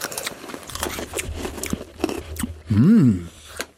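Hard, pressed freeze-dried raspberries are bitten and chewed in a run of crisp, dry crunches, followed near the end by a brief hummed vocal sound before a last crunch.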